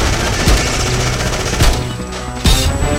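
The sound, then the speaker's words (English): Gunfire: three sharp, loud bangs spaced roughly a second apart, cutting through a dense, continuous roar of noise. “Come back here or I'm gonna shoot!”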